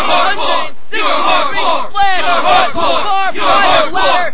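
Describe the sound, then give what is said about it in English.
Wrestling crowd at a hardcore WWA match in Madison Square Garden chanting in unison, loud rhythmic roars of massed voices repeating in steady waves throughout, with no single voice standing out. “listen to them chant, everybody is going hardcore.”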